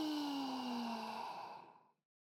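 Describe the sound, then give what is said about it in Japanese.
A long, deep exhale during a breathing exercise, softly voiced with a slightly falling pitch, steady at first and then fading into silence after about two seconds. “肺いっぱいに空気を溜めるイメージで息を吸って、吐いて、”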